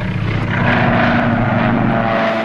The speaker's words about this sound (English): Now we can't get our plane where we want it to go. We're losing altitude.